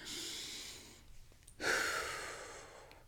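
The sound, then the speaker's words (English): A deep, audible breath taken alone with no talk: an airy rush of breath, a brief pause, then a stronger, louder breath that slowly fades out. “Take a deep breath with me if you feel like you need to do that too.”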